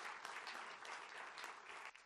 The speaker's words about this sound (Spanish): Vamos a recibir con un aplauso a el superintendente de criptomonedas.